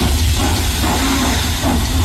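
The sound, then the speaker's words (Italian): A historic steam locomotive pulling three carriages arrives on the Udine–Pordenone line, with a loud, steady hiss of steam over low rumbling rail noise. “I tre vagoni arrivano in una nuvola di fumo, trainati da una locomotiva che sbuffa.”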